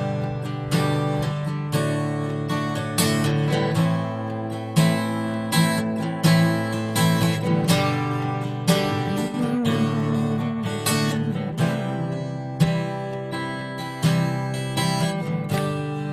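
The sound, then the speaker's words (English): Acoustic guitar strumming the chords G, D, A minor and C in a steady rhythmic pattern, full ringing chords with regular accented strokes, played alone without voice. “Now if I add some strumming to it, it's going to sound a bit more like the song.”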